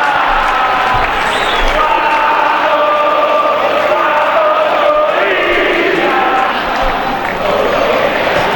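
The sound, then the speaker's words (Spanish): Football fans in the stadium stands chant together in a sustained, sung crowd chant. Many voices hold steady melodic notes at a constant loud level for the whole stretch. “Canta de nuevo el público franjeado. Escuchen ustedes.”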